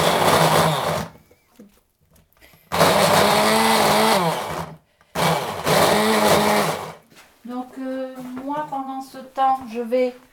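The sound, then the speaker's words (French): An electric food chopper chopping onions runs in three loud whirring bursts of about two seconds each, with a steady motor whine and short pauses between them, followed by a person talking. “je coupe un petit peu mes oignons pour qu'ils puissent rentrer dans mon hachoir”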